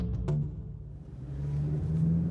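A car drives through the city of Joplin, Missouri, giving a faint, steady low engine and road rumble with a soft hum.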